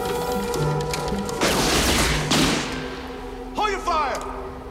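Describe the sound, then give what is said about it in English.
Gunfire rings out as two men burst in shooting indiscriminately. Several loud, harsh bursts stand out over a steady low hum, with a long blast near the middle and two shorter cracks toward the end. “The two men burst in, firing indiscriminately, and Lee manages to get a couple of shots off herself.”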